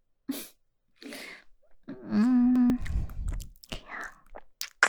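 Chewing of a plain-flavoured snack while being hand-fed: a few soft crunches and mouth sounds mix with breaths and a hummed, voiced murmur of enjoyment.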